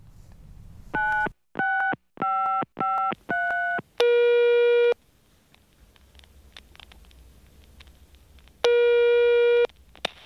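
Telephone tones while placing a call: a quick run of five short, clipped tone bursts, then two longer steady ringing tones separated by a quiet pause, all clear and alone.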